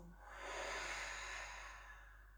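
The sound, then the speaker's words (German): A slow, relaxed exhale during a guided breathing exercise: one soft, breathy hiss that swells gently and fades away, faint and unhurried with no voice over it. “Tief einatmen. Gelöst ausfließen”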